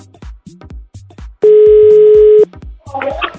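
A telephone tone sounds while a call is placed: a single loud, steady electronic tone lasting about a second, set between rhythmic low thumps, with a burst of noisy sound near the end.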